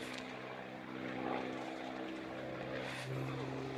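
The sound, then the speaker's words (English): An aeroplane flying overhead makes a steady, loud droning roar with a low humming undertone. It swells slightly midway and holds without a break, and no voices are heard. “I can't hear, sorry, that aeroplane.”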